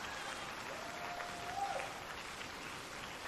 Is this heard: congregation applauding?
yes